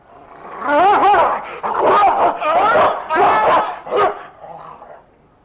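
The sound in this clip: A dog barks in several rough, loud bursts with short gaps between them. Some bursts bend in pitch into growling whines, and the last one is short and sharp.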